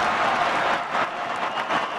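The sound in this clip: Toronto fans cheering and applauding at BMO Field near the final kick of a soccer match against Montreal, a dense, steady crowd roar with clapping that swells slightly in places.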